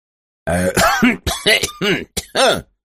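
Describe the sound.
A voice acts out a fit of coughing: many quick, raspy, voiced coughs in uneven bursts with brief gaps between them, loud and clear with no other sound.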